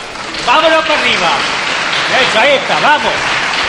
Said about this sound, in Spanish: Y esos aplausos son porque el pueblo de Jaén ya empieza a ver la imagen, sobre todo el paso de nuestro Padre Jesús a asomar por el dintel.